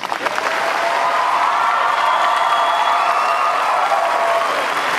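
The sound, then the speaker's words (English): An audience applauds to welcome Barack Obama and Mitt Romney to a presidential debate, with dense, steady clapping sustained throughout. “The audience has taken a vow of silence, no applause, no reaction of any kind, except right now, when we welcome President Barack Obama and Governor Mitt Romney.”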